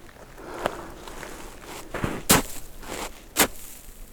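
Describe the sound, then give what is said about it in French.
A few crunching footsteps land in more or less powdery snow at an irregular pace over a faint background, with two steps noticeably louder than the rest. “C'est le son de l'hiver. Vous marchez.”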